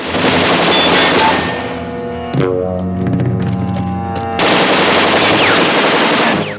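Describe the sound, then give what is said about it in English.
Uzi submachine gun fired from across a street: a long, loud automatic burst, then a quieter gap, then another sustained loud burst of rapid fire that runs to the end. “He sees Fraker firing the Uzi at him from across the street.”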